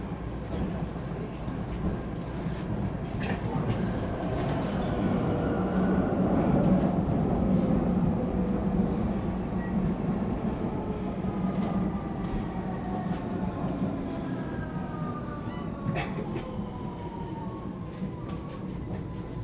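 An S-Bahn commuter train at a station gives a continuous heavy rumble, with whining motor tones that glide slowly in pitch over the top for the whole stretch.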